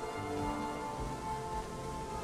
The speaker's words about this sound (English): Rain. Real rain?